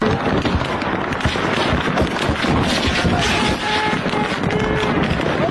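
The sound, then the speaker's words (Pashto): Gunfire from an armed sectarian clash between Shia and Sunni groups in Kurram forms a dense, continuous barrage of many overlapping loud shots and cracks that never pauses. “د ډزو دا اوازونه په کورما کې د شګانو او سنانو ترمنځ لا پنځو ورځو د خښشي جنگ دی.”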